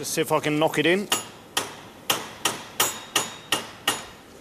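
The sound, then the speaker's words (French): A bolt being used to loosen a stripped screw holding a very dirty disc inside a fuzz pedal, on which an Allen key spins freely. It gives about seven sharp, ringing metallic taps, spaced unevenly and each fading quickly. “Ma clé Allen tourne dans le vide. Je vais utiliser ce boulon pour voir si je peux virer la vis.”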